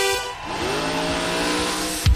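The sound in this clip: A car pulls away with its tires squealing, a loud sustained screech with a high whining tone over the steady roar of the engine, cut off by a brief thump at the end.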